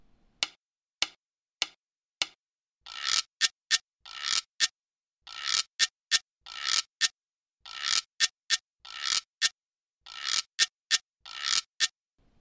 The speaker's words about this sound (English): The güiro plays a variation of the, quote, standard güiro part.